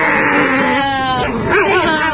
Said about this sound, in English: Is he going to do anything besides just growl? No, he just grunts.